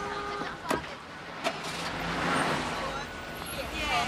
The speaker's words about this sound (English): Adele walks to her car, gets in, and drives off.